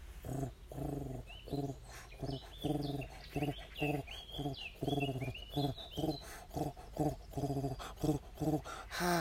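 Turtle dove purring at close range in the morning: a long series of low, rhythmic, throaty pulses repeating steadily, while other birds chirp and trill more faintly at a higher pitch.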